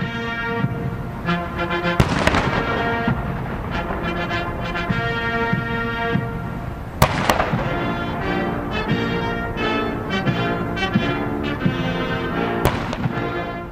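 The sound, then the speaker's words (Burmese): Cannons fire a salute at the Capitol for a presidential funeral. A few sharp blasts sound several seconds apart over sustained military band music. “Capitol Hill ကိုရောက်ရှိစမှာလဲအမြောက်ပြစ်ပေါက်ဂုံပြုပါတယ်”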